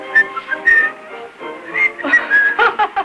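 A man whistles a short tune, a run of brief melodic notes of varying length, moderately soft, with no talk over it.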